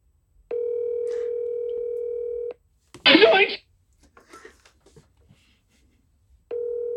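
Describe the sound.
A telephone call ringing out unanswered: a long, steady ringback tone, then a brief loud burst of noise and a few faint scattered sounds, before the ringback tone starts again at the end.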